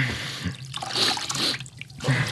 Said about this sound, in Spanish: Vamos a traer un poco de agua para limpiar esas heridas.